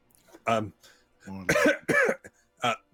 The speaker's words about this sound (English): I think you should try to clear your throat.